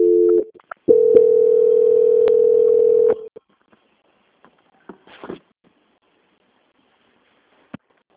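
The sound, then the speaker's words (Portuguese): A telephone line tone plays while a call is being transferred: a short tone, then one long, even, steady tone lasting about two seconds. Scattered faint clicks and near silence follow. “eu peço que a senhora guarde em linha que eu vou transferir para um controle de qualidade que dará continuidade à sua contratação.”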